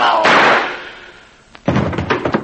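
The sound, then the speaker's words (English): A single gunshot in a radio drama cracks out loudly and decays over about half a second before a voice begins speaking. “You shot him. You shot a cop.”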